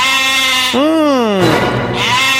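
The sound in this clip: A goat bleats once, a loud wavering cry that slides downward in pitch and then breaks into a rough, noisy tail over a steady background hiss.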